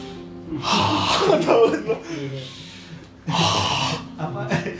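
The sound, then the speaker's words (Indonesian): Two long, deep breaths of meditation-style tai chi breathing, each a broad airy rush lasting about a second, with a quieter stretch between them and voices in the background. “Apa itu napas panjang meditasi ya. Ceritanya tai chi ya”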